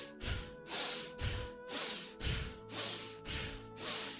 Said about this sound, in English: we are going to practice Breath of Fire. Be comfortable. Rapid inhale, rapid exhale through your nose.